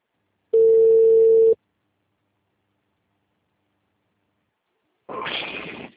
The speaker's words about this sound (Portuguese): Perdão, a ligação caiu.